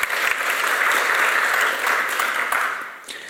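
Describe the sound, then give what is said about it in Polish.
Audience applause welcoming a director at a formal gathering: full, even clapping from many hands that holds steady, then fades away near the end. “Serdeczne brawa.”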